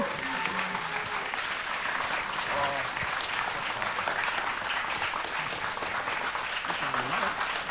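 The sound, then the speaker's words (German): Applause from an audience in a cinema: sustained clapping from many hands at a moderate, even level, with a few brief voices rising over it at points. “Irgendwann auch einen Applaus.”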